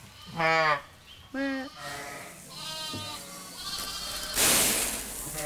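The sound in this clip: Ewes and lambs bleating in a barn around lambing time. Two loud, wavering bleats are followed by several softer, higher calls overlapping one another, then a brief rustling burst of noise.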